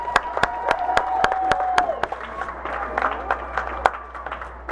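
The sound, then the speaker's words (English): Applause from an audience at a school gathering, honoring staff members, with many sharp claps rising over a steady crowd noise and a faint tone running beneath. “So give them a round of applause.”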